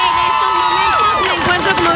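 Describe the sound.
Crowd of high school students at a gun control protest march in Washington DC, a dense babble of overlapping shouts and cheers with yells sliding up and down in pitch.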